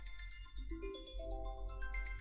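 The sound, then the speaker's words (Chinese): Mobile phone ringing with an incoming call from a boyfriend, a faint electronic melodic ringtone of bright notes that step upward in pitch, with no voices over it. “我男朋友打电话来了，吓死我了。我接个电话，”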